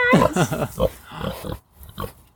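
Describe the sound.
A pig being fed carrots grunts and snorts, starting with a squealy, tonal burst and then several rough, uneven bursts that fade into quieter snuffles.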